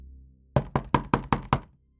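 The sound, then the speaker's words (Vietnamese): Six heavy bangs on the door of a locked, boarded-up house, struck hard in a quick, even rhythm. The blows are loud and come alone, with no voices. “Bên trong có tiếng đập cửa dữ dội, kèm theo giọng của tên Béo.”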